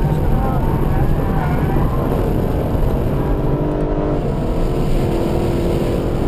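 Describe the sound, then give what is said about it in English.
Race car engine roaring in fourth gear as the rear end slides through the fastest corner of a track, a loud, sustained drone with a brief shift in tone partway through. “I'm amazed how much you're sliding the back end, it's extraordinary. Just down one gear, fourth gear, still sliding.”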